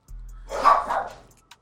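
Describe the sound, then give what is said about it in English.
A dog barks in a short, rough flurry of yaps lasting about a second, mid-pitched and fairly loud over a low steady hum, with a faint click just after. “Sound like that's your dog and my dog.”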